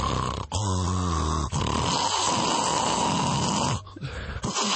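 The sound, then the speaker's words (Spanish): A voice imitates loud snoring, mimicking a brother's heavy, dragon-like snore: harsh, rasping, drawn-out snorts with a buzzing throaty rattle, a few long pulls separated by brief pauses, with no other sounds. “Mi hermano ronca más, mucho más. O sea, ronca hace tipo...”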